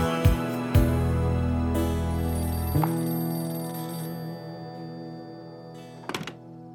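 A telephone bell ringing in a drama scene gives a sustained, metallic ring with a few dull thuds and then slowly fades. A short cluster of sharp clicks follows near the end.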